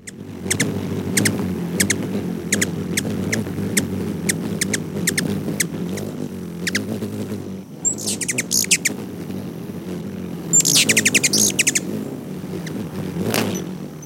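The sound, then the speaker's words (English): A ruby-throated hummingbird gives many sharp, high chirping calls in quick succession, broken by two short bursts of buzzy wing-beat sound. A steady low rumble runs underneath throughout. “Those were calls and wing beat sounds from the ruby-throated hummingbird”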